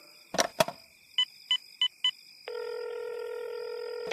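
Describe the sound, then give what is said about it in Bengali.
A telephone number dialed on a keypad: two sharp clicks, then four short, evenly spaced tone beeps, followed by a long steady tone and a final click. “অগত্যা বিজ্ঞানী চন্দ্রকান্তকে phone করলাম”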